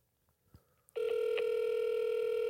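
Telephone ringback tone on an outgoing call: one steady, unbroken electronic tone that starts about a second in and holds to the end, alone after a few faint soft sounds.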